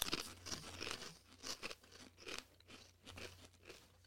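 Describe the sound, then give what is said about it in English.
Crunching of sour cream and onion potato chips being chewed: many crisp, irregular bursts of crackling bites follow one another steadily, with no talking. “It tastes better than it smells. I'm not mad at it. It's a sour cream and onion chip.”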